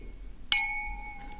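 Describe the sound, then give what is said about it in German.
Glasses clinking in a toast over a drink, a single bright strike that rings out in a clear, sustained high tone and slowly fades, with no voices. “Vorher müssen wir natürlich jetzt mal anstoßen.”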